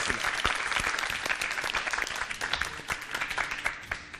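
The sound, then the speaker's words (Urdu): Loud applause from an audience at a cooking contest, cheering on a participant, with many distinct sharp claps standing out of a dense, continuous patter for about four seconds. “ان کی حوصلہ افزائی کیجیے گا زوردار تالیوں کے ذریعے.”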